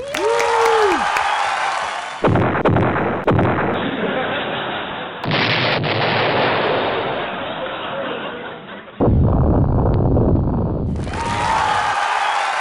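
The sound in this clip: Comedic explosion sound effect made of several abrupt, loud, noisy blasts and rumbles spliced back to back, each cutting in sharply and holding steady before the next, with no talk over them.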